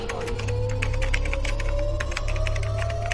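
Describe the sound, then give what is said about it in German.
Rapid typing of letters on a computer keyboard, many light clicking taps over a steady low hum and a sustained faint tone. “Die Hände an die Tastatur. Das gilt für alle. Und jetzt ein F, R, Z, G, B, L in den Chat schreiben.”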